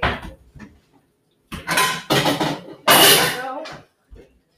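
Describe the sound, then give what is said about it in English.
Dishes clatter in a kitchen as a mixing bowl is swapped for a smaller one while burgers are being cooked. Several loud knocking and scraping bursts are separated by short quiet gaps. “Wait a minute, 1 second. Switch out my bowl for the smaller one.”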